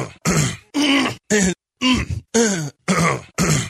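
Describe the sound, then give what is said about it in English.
A man clears his throat over and over in a string of loud, rough, growling bursts separated by short gaps, each harsh and strongly voiced. “Every time John Orlance clears his throat, an angel loses a feather from his wings.”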